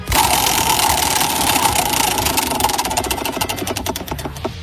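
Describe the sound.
A prize wheel spins during a game, its pointer rattling in a dense, rapid stream of clicks that gradually slows, the ticks spreading farther apart toward the end.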